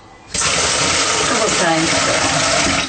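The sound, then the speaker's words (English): Water gushing steadily into a rice pot as the rice is washed and rinsed: after a brief quieter moment the loud, hissing rush starts abruptly and continues evenly to the end, with no talking. “Put some water in that rice pot and stir it and wash it and rinse it.”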